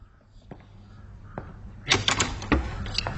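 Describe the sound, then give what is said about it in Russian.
A door is opened: a couple of faint, isolated taps, then a quick cluster of sharp clicks and rattles from the latch and handle. The sound is fairly quiet overall. “Идет открывать дверь.”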